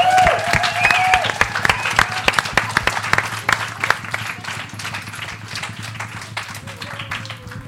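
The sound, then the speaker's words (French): Applause from pupils and guests at a school reading night, a dense patter of claps that starts strong and gradually thins and fades, with voices heard over it. “Et je pense qu'on peut tous s'applaudir pour ce, on peut, dire voilà. cet exploit.”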